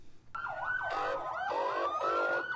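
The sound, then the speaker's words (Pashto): Wailing sirens of ambulances and fire engines in Quetta city after a suicide bombing near a crowded market. Several sirens overlap, rising and falling, loud and continuous. “دا په کوټه ښار کې د تیر شپې د یو ځانمرګي برید ورسته د امبولانسونو او د اطفایې د ګاډو ژغ دی.”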